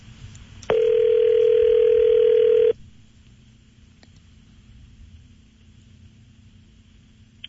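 A single steady ringing tone on a telephone line during a studio call lasts about two seconds and is loud and alone. Faint, low line hiss follows.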